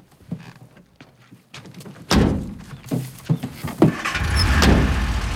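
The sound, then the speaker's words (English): Ambulance doors thud shut with a few heavy slams and knocks, then a low engine rumble builds and holds as the ambulance drives away. “He's placed inside the ambulance and the doors are closed.”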